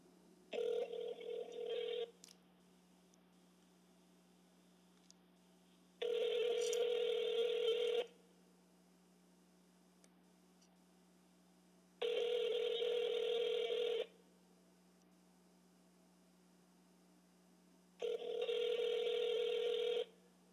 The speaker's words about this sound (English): I'm gonna see if I can get Deshae on the phone so he can explain this post right here.